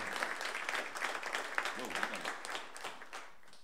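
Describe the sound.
Audience applause welcoming a performer on stage, dense continuous clapping that tapers slightly toward the end, with a voice briefly heard over it.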